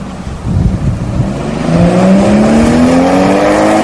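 A car pulls away and accelerates hard, its loud engine note climbing steadily in pitch and swelling into a sustained roar.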